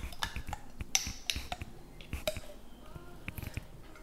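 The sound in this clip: Peanut butter spooned into a stand mixer bowl: light clinks and soft scraping of a utensil against the bowl, with a few sticky squishing sounds, fairly quiet throughout.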